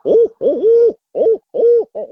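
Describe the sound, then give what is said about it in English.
A person's voice imitates the cadence of a barred owl, as a hunter does to calm deer: several hollow, wavering hoots in quick phrases with short gaps, loud and alone. “A lot of times I'll do the cadence of a barred owl and it makes them settle right back down.”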